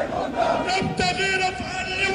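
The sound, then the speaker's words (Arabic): A crowd chants slogans backing the resistance and denouncing security coordination at the funeral of a martyr, held at the Martyrs' roundabout in the city. Many voices blend into a continuous roar. “أودع جثمان الشهيد الكيال قبل أن يصلى على جثمانه عند دوار الشهداء بالمدينة، ثم يوارى في الثرى وسط هتافات داعمة للمقاومة ومنددة بالتنسيق الأمني.”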